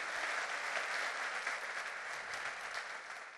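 Applause from an audience at a commemoration ceremony as guests are welcomed onto the stage, a steady, even wash of many hands clapping, fairly soft and continuous, with no voices over it.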